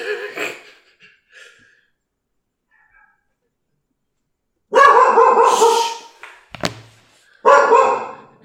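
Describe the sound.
Dogs barking in two loud bursts of overlapping barks, with a sharp thud between them and a few quieter sounds before.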